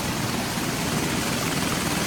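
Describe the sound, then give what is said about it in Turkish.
A military helicopter during a raid on a seized oil tanker makes a steady, dense roar of rotor and engine noise. It stays loud and unbroken throughout, with no voices. “Paylaşılan görüntülerde de ABD askerlerinin el konulan petrol tankerine helikopterle düzenlediği baskın anlarına yer verildi.”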